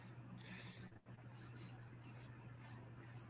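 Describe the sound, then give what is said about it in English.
A pen scratches out an answer on a card during a question game: faint, short scratchy strokes in a few bursts over a steady low hum. “so on the card, we're writing our answer, right?”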